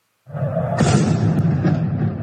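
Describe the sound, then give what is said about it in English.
Tear gas canisters being fired in a residential neighborhood of Tehran: a sudden loud onset, then a continuous harsh, roaring rush with a second sharp burst partway through. “That's a video featuring the sound of tear gas being fired in a residential neighborhood of Tehran.”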